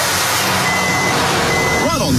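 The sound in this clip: Reversing beeps sound from a firewood delivery truck, two steady high-pitched tones over a continuous rumbling hum, with a voice briefly heard at the end.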